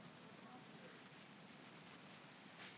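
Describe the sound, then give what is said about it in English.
Rain falls in a soft, steady, faint hiss that stays even and continuous from start to finish. “The rain's coming again.”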